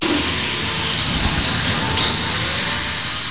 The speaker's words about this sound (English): he's using a grinder to smooth out the edges of a weld that he's just performed